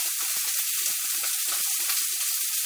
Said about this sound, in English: So you can hear now they're sizzling a little.